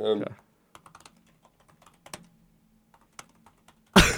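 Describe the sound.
Hard typing on a computer keyboard: scattered sharp keystrokes and a few heavier pounding taps with short gaps between them. Brief bursts of talk come at the start and the end.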